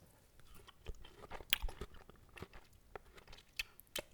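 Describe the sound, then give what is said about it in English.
Someone eats a gooey, leathery, grape-like fruit: faint, soft wet bites and squishy chewing sounds come in an irregular rhythm, quiet and alone. “They're gooey. Yeah. It's like a leathery grape. It is like a leathery grape. I'm gonna eat one.”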